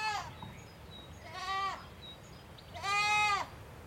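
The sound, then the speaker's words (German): Bottle- and bucket-raised lambs bleating in front of a farmhouse on a sunny May afternoon: three wavering, nasal bleats, the last one longest and loudest, with quiet gaps between them. “Im Hintergrund meckern einige Lämmer, die ich mit Flasche und Eimer großgezogen habe.”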